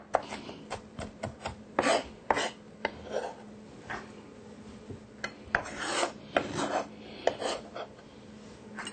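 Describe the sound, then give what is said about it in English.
Vinegar- and sugar-soaked jalapeno peppers are chopped in many quick, irregular, rasping strokes, faint and scratchy, with brief gaps between clusters. “Now, these jalapeno peppers have actually been soaked in vinegar and a little bit of sugar to get some of the hotness off, but still keep a lot of flavor in. And we're just going to chop these.”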